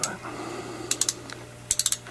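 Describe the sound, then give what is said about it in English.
Quick ratchet wrench clicks on a sink pipe, fairly faint over a low hum: a short burst of three, then after a pause a tighter run of four. “Oh, I think he's ratcheting me. It just sounds... Oh, my gosh. I like the ratcheting.”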